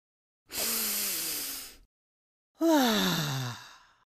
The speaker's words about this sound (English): take a deep breath in through your nose and exhale with a long, loud, forceful breath like this.